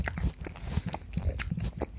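Biting and chewing a crisp Granny Smith apple: many wet, crunchy chews in a steady rhythm, fairly close and clear, with no talk over them.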